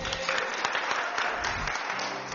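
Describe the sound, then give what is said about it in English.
Audience clapping at a religious gathering: dense, steady applause that runs unbroken for a couple of seconds at a moderate level, with no clear voices above it. “Is she correct? Yes. Clap for her.”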